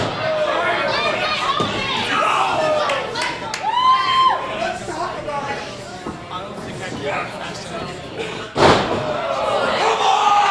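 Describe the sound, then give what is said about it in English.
A body slam at a wrestling match: one heavy, sharp impact on the ring mat near the end. It cuts through continuous ringside commentary and crowd chatter. “body slam”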